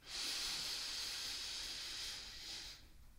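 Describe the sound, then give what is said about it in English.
A slow, steady inhale during a breathing exercise, drawn over a count of four: one long, airy hiss that holds evenly, then tapers away near the end. “So let's say I breathe in for 4,”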